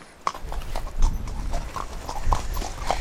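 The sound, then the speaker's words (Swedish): Horse hooves clip-clop on the ground as the animal is ridden in Abisko, a steady run of many hoof strikes in an even walking rhythm with no talk over them. “Jag kan rida Frippe annars. Kom här. Ja, du får välja. Jag rider Frippe då.”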